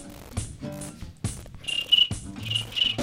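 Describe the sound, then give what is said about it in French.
Cricket chirping comes as a few short, high, buzzing bursts that sit among softer, lower clicks and rustles, all fairly quiet. “Grelon. Grillon. Grillon.”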